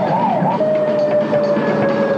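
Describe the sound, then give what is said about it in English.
A police siren wails during a pursuit of a stolen ambulance, a wavering tone that levels into a steady, piercing whine over loud, rumbling noise, with no voices. “This is Unit 1 in pursuit of stolen ambulance. Now headed south on 14th Street. All units converge.”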